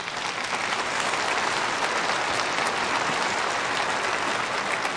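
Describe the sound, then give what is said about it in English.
Applause from a church service audience, dense steady clapping that holds evenly for about five seconds with no talk over it. “Give yourself an applause for 40 years.”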